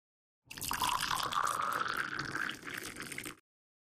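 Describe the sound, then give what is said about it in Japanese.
Hot green tea pours from a teapot into a teacup in one continuous, splashing stream of about three seconds, its pitch rising slightly as the cup fills, then stopping abruptly. “急須の中にお茶っ葉とお湯を。よし、じゃあ湯飲みさ注いでいくね。”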